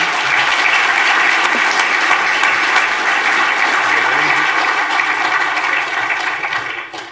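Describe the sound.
Audience applause welcoming a guest speaker at a campus chapel service, dense, loud, steady clapping from many hands that thins out near the end.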